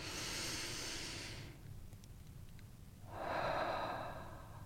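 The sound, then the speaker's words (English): A person takes a slow, deep breath during a guided meditation: a soft, airy inhale, a brief quiet pause, then a fuller, breathy exhale, with no talking. “And I invite you to take a breath.”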